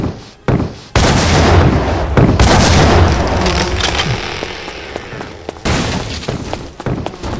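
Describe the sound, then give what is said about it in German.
Gunfire in a video game: a few sharp, loud bangs rise out of a dense, sustained noisy rumble, with further cracks scattered through the rest of the stretch and no talk. “Ich höre sie schießen.”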